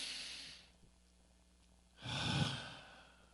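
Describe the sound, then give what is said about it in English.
A deep breath taken during a prayer, heard as two breathy gusts with no talk: a softer airy one at the start, then after a pause a louder, fuller breath with a low rushing body. “Take a deep breath.”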